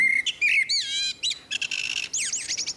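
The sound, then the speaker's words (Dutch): A male blackbird sings one normal song strophe, opening with loud, clear fluted whistles and ending in a quicker series of higher, twittering chirps and trills, heard alone. “Maar soms komt een merelman een concurrent tegen en dan verandert die zang. Laten we daar even naar gaan luisteren. Ja. Dit is nog 1 normale strofe.”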